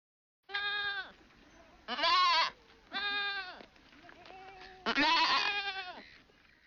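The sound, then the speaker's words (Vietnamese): Goat bleating, four loud wavering bleats with rich harmonics at uneven intervals, each trailing into softer sound, with no voices. “Thông thường trong tiếng Nhật, tiếng dê kêu được diễn tả bằng từ mê mê.”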